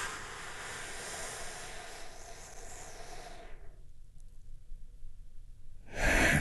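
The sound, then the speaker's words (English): A big, deep, healing breath: a long breathy rush lasting several seconds, a quiet pause, then a loud burst of breath at the end. “as we take a big, deep, healing breath right now. Here we go.”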